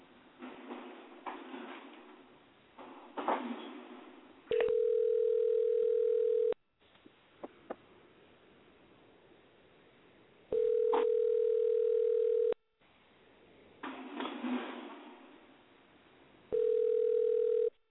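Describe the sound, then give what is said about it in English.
A telephone line tone plays while a number is dialed, repeating three times. Each steady mid-pitched tone lasts about two seconds, and faint rustling and clicks fill the pauses between them. “We dialing Tony number.”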